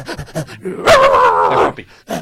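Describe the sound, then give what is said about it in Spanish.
A person's voice imitates a dog: a few short barking bursts, then one loud, drawn-out whining howl, and a brief final yelp. “Es muy bonito ser perro. Yo soy perro, mira.”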